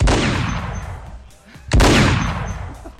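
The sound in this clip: Two loud gunshot sound effects, each a sharp, powerful blast followed by a long rumbling decay, the second coming after a brief near-quiet gap.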